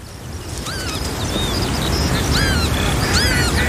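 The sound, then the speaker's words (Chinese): A pair of northern lapwings tending chicks give repeated thin, rising and falling wheezy calls over a loud, steady low rumble of background noise. “一对凤头麦鸡正辛勤地照料着两只雏鸟，”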